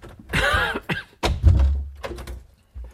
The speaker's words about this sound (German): Na, schließen Sie auf. Sofort. Mit Freuden.